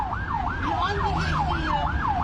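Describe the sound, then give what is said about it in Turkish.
Ambulance siren wailing in traffic, a loud, steady rising and falling tone repeating about every half second over a low road rumble; no distinct car horns stand out. “Korna, siren ve anonsların ardı arkası kesilmedi.”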